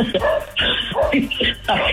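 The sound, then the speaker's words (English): A worked-up dog barking, several short, sharp barks in quick succession with brief gaps between them, loud and excited. “We got your dog all worked up.”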